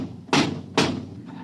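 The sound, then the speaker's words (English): A door lock being opened gives two heavy clunks about half a second apart, each a sharp thud with a brief ring, and no voices in between. “Quiet. I think they're opening the lock.”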